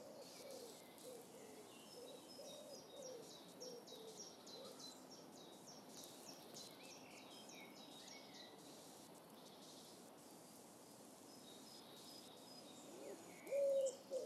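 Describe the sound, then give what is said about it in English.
Birds sing outdoors on a morning walk, giving faint, high chirps and short calls that repeat throughout. Soft insect-like buzzing sits under the birdsong in a quiet, steady background. “Here's the sound of some of the birds near us as we went for a walk this morning.”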